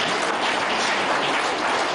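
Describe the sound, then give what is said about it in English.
Loud, steady applause honoring a school for its examination results, a thick, even roar of many hands with no break. “I think Ebukiro deserves a hand of applause.”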